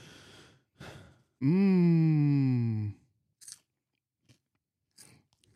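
Crunchy chewing of packaged edible bugs: a long voiced hum of appreciation, then a few short, crisp crunching bites spaced apart in near silence.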